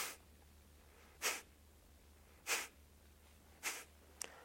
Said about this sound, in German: Kapalabhati ist die Schnellatmung, gefolgt von Luft anhalten. Sieht so aus.